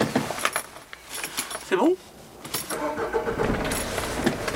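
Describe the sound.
A white van's engine cranks and starts in Saint-Avold, with a short, loud burst near the middle followed by a steady running hum and scattered light rattles.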